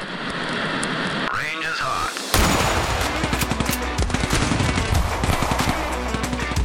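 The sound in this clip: Rapid machine-gun style gunfire used as a sound effect in a gun-themed show intro. Loud, dense bursts of shots crackle continuously after a short warbling electronic sweep.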